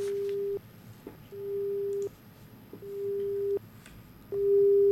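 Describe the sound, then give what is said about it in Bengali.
Telephone busy tone after a call was cut off: a steady mid-pitched tone pulsing on and off in regular, evenly spaced bursts, with quiet line hiss filling the gaps between them. “কেটে গেল। শ্রোতা বন্ধু আরেকবার চেষ্টা করবে, ফোনটা কেটে গেল এই মুহূর্তে।”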